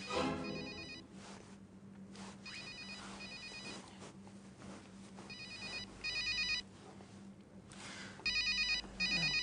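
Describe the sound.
A mobile phone ringtone plays alone with no talk, its electronic melodic tone repeating in several bursts.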